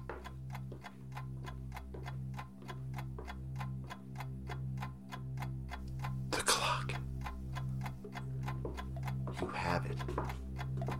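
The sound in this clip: Steady ticking of a pendulum clock with a glass front, imagined as cursed in an audio drama. Many even, crisp ticks repeat at a quick regular pace over a low sustained droning tone.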